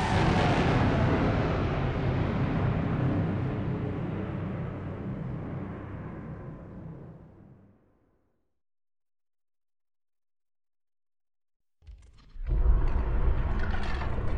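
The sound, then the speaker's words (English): A spaceship, the Valson, lifts off a landing pad on Korriban and shoots into the atmosphere: a loud, dense roar that slowly thins and fades away over several seconds. After a stretch of silence, another loud burst kicks in. “A moment later, the Valson rose up from the landing pad surface, then shot off into the atmosphere, leaving Korriban and the Academy behind.”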